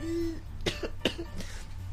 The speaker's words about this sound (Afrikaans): Kyk hoe lyk sy arme oe en sy nies en die hoesie.